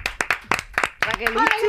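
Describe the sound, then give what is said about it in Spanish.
Sharp, rapid hand claps welcome a guest onto a Spanish show. There are several quick claps, and an excited voice cries out over them near the end. “Así que quiero que le deis un aplauso muy grande a Raquel Herbás.”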